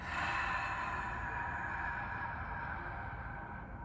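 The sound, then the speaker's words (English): A long, steady breath of airy rushing during a guided breathing exercise. It holds an even level, fading slightly toward the end, with no voices. “On the count of 3, inhale for 4. Hold for 7. Exhale for”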